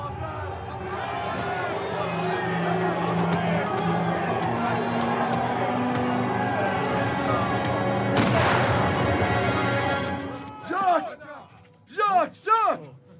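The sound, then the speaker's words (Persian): A gunshot as someone is shot: a single sharp blast cracks out partway through a loud commotion of shouting voices, followed by strained, anguished cries. “جاک تیر خورده. لعنتیا، خدا لعنتتون کنه.”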